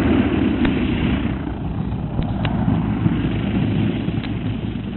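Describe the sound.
A steady, droning aircraft engine sounds as a plane comes in to land near a camp beyond a gully. The broad, rumbling tone holds at an even level throughout with no voices.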